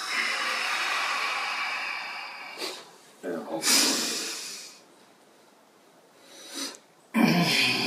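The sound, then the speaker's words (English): Nasal breathing during a counted inhale-hold-exhale exercise before a hike, done entirely through the nose with the mouth closed: a few long, airy rushes of air, separated by a quiet held pause. “I'm going to do it all through my nose. There's going to be no open mouth. 1, 2, 3, 4 in. Hold for 4. Hold for 4. Exhale for 4.”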